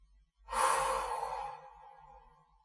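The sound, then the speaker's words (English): One soft breath during a guided breathing exercise, a quiet, airy hiss that swells quickly and then fades away slowly, heard alone. “As you breathe in, breathe out with me.”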